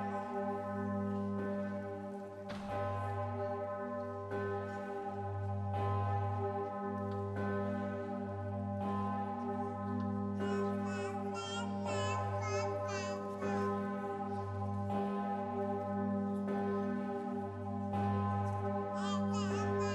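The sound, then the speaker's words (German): Church bells ring during a church prayer service. Sustained, overlapping tones keep sounding at a steady loudness throughout, with fresh strikes every few seconds. “irgendwie wird es jetzt gleich die Glocken geben”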